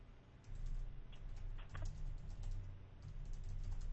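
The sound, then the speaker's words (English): Computer keyboard typing makes many rapid, light key clicks in an uneven stream, fairly faint over a low steady hum. “Let me go ahead and write this on Twitter.”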